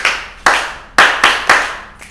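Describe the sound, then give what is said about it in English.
A group claps hands together in unison, landing five sharp, loud claps at a roughly even beat with short decays between them. “so let's clap on one. So we do it that way. One, two, three, go.”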